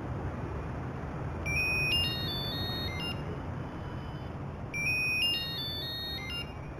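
A telephone rings with two bursts of high, trilling electronic tones, each lasting about a second and a half and separated by a pause, over a steady background hiss.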